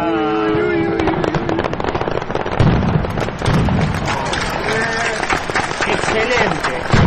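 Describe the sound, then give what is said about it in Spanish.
An aerial firework shell, a number 5 bomb at a nostalgia festival, bursts into dense, continuous crackling with heavier booms mixed in, while voices talk over the noise. “Qué impresionante. Esa fue una bomba número 5.”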